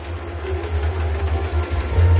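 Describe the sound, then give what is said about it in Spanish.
A train starting to move again, heard as a steady low rumbling drone with faint pulsing that grows slightly louder toward the end. “El tren arranca de nuevo.”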